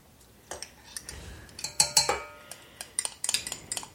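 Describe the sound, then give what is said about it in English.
Pumpkin butter, egg and vanilla are dumped from a measuring cup into a bowl of cookie dough for pumpkin butter chocolate chip cookies. Many light, sharp clinks and taps of the cup and utensils against the bowl come in quick, irregular bursts. “Now, we're going to take the measuring cup with the pumpkin butter, the egg, and the vanilla, and dump that in here.”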